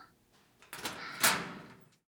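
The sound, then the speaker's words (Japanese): A metal locker door being opened: a faint rattling, scraping door sound lasting about a second, swelling to a sharper peak midway and then fading into silence. “そろそろ。ロッカーを開けてあげましょうか。”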